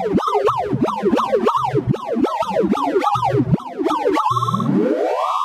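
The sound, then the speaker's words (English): Sonified sorting algorithm, a computer program organizing data: rapid electronic tones repeatedly sweep up and down in quick arcs, then end in a steady, stepped rising glissando. “My name is Wouter Bernhard, and that sound you just heard is a sorting algorithm, a computer program that is trying to organize a whole bunch of data.”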